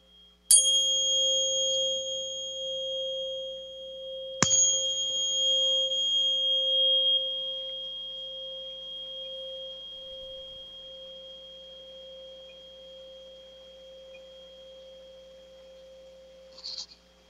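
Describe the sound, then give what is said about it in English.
A 528 hertz tuning fork struck twice with a Lemurian crystal: each hit gives a sharp click, then a steady, pure ringing tone that slowly fades over many seconds, heard alone without talk. “That's the sound of the 528 hertz tuning fork, and I've just hit it with a Lemurian crystal that has lots of love energy in it.”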